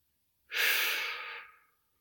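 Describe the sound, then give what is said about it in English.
A single deep breath, one long airy whoosh that rises quickly and then fades out gradually, heard alone against silence. “All right, everyone take a deep breath with me, in and out.”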